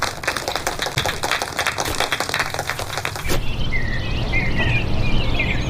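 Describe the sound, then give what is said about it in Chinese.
Applause from a group congratulating a colleague on his promotion to deputy section chief: a dense, busy patter of many hands clapping together for about three seconds, then giving way to a steadier noisy wash. “来，鼓掌，好事儿！恭喜方副处长！”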